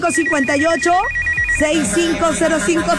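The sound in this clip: A telephone ringing tone follows a dialed call, pulsing in a fast, steady on-off pattern. It plays under prominent voices and stops partway through while the voices carry on.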